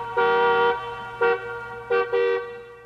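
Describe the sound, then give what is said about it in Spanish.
A car horn honks four times, one long blast followed by three short toots, loud and alone with no talk. “No, no, eso es una bocina, no tiene nada que ver.”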